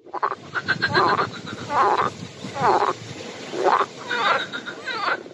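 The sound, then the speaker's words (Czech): Frogs croak by a pond in the evening, a series of rough, raspy bursts repeating at irregular intervals of roughly a second, moderately loud with no voices over them. “To je žabí kvákání.”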